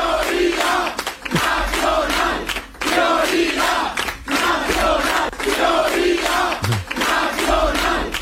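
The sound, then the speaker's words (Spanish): Political party supporters chanting a slogan on election night, a loud crowd shouting in unison with a steady repeating rhythm of short, punchy phrases. “El sonido de la noche electoral estuvo en los cánticos de los simpatizantes de Vox, prioridad nacional, y para corearlo con acento en la O, prioridad.”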